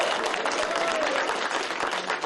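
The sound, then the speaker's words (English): A round of applause after a football win, dense sustained clapping from a group that stays loud and even throughout, with faint voices mixed in. “give yourself a round of applause.”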